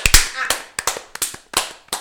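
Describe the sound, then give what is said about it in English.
A small round of applause from a few people, heard as sparse, irregular sharp claps rather than a dense ovation, with short gaps between bursts. “Well, I'd like to give a big round of applause”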